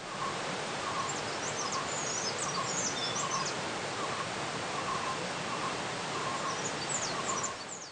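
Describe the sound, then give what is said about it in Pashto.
Calls of a common kingfisher by a river where fish swim upstream: short, thin, high-pitched whistles in a few quick bursts, faint above a steady wash of rushing water. “خو دلته زه د عادي کب خوړونکي مرغه غږ اورم”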